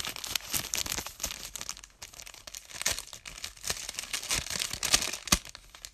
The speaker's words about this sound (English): I also got a letter for you. From Mrs. Blue Star. It says right here. Let me get my envelope.